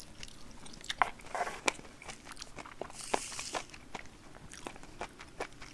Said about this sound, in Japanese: 今リビングルームでご飯食べてる